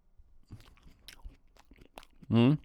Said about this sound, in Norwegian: da prøver jeg å spise litt mer surkål her. Ok, hør nå.